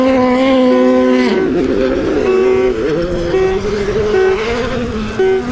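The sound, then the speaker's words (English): Loud engine drone of a Hyundai rally car passing during a rally event: a steady, harmonic-rich whine that shifts pitch a few times as it holds, with no break in the sound. “Oh no, it's another one of the Hyundais.”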